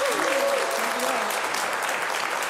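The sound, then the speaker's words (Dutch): Applause from an audience for a band guest, a dense, steady clatter of many clapping hands lasting throughout, with a voice briefly heard at the start. “Nog één keer een groot applaus voor Roos.”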